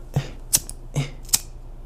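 Four crisp clicks of a lighter being flicked to light a blunt, evenly spaced, each a short snap with a faint dull body, with no talk.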